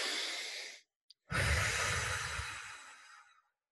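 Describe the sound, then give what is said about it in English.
A deep cleansing breath: a long breathy inhale, a short silent pause, then a longer, fuller exhale that slowly fades away, with no talk. “I want everyone to take a nice deep cleansing breath on that one. I'm going to do that myself.”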